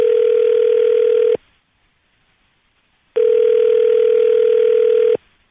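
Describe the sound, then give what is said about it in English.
A telephone rings on the line of an outgoing call. Two long, steady electronic ring tones of about two seconds each are separated by a silent gap, loud and alone with no voices. “Oh, the phone's ringing.”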